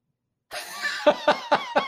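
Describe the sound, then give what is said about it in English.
A man snorting mucus, with a rough nasal rush followed by four sharp, evenly spaced snorting bursts, loud and harsh. “Did he make a nasty noise? Yeah, he did. He snorted his mucus.”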